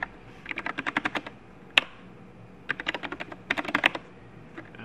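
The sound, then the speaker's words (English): Keystrokes on a computer keyboard as someone types a host name on a self-hosted server: rapid clicky taps in short bursts, with one sharper isolated stroke between runs and a few scattered taps at the end. “helps if I type the host name right.”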